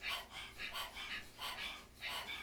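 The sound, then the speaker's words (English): A person pants like a dog with the tongue out as a breathing exercise, giving quick, rhythmic breathy huffs that repeat many times at an even pace, fairly soft. “If you've never done it before, stick your tongue out of the mouth, begin to pant like a dog. Focus on the exhale and notice that the in-breath just comes naturally.”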